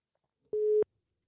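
A single short, steady telephone tone sounds as an outgoing call is placed. The clean beep stands alone against silence.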